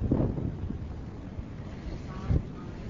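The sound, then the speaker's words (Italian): Strong wind on a ship in front of the engine room buffets the microphone, a steady, low, rumbling roar that fills the whole clip with only small swells in loudness. “C'è un vento molto forte.”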